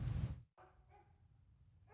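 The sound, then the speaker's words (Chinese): A dog barks in an animal shelter in western Los Angeles: one loud bark at the start, then a few fainter canine sounds in a quiet stretch. “这是一个位于洛杉矶西部地区的动物收容所，这里很少有安静的时候，有超过200只猫狗被收养在这里。”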